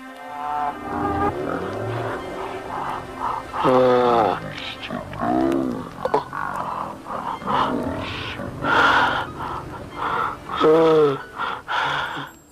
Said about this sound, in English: we slowed down the who's to know to, I'd say, approximately half the normal speed. And if you accept the hypothesis that there was a car accident, tell me if this doesn't sound like a man groaning to get out of it.